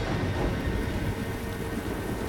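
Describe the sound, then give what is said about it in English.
Heavy rain teeming down on a shipyard full of containers, a dense, steady roaring hiss with no break and no distinct claps, fairly loud and unvarying throughout. “Rain teems down in a shipyard full of containers.”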